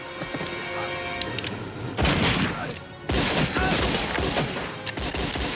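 Gunfire from a western film scene. Loud, dense volleys of shots burst in around the two- and three-second marks and carry on as a heavy, crackling roar with booming low end.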